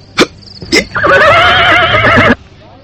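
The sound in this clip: A horse neighs in a long, loud, quavering whinny that lasts over a second and then cuts off to near silence. Two short, sharp bursts come just before it.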